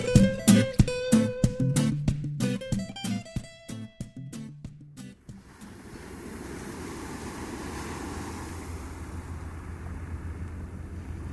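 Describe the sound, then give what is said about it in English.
Sea waves washing on the shore in the early afternoon, a soft continuous rush lasting about six seconds after a short passage of struck musical notes. “as I record this, you can probably hear a bit of noise surrounding me. Well, primarily that noise is the sea”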